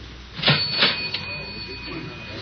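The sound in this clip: A cigarette machine at Costa's Cafe is operated with a few mechanical clunks and rattles, while a thin, steady high whine runs through most of the sound.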